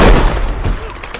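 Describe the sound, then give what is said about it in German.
A rifle shot aimed to ricochet off a rock during a Western gunfight: a loud, booming crack at the very start that decays into a rumbling tail over about a second. “Hey, verdammt guter Schuss!”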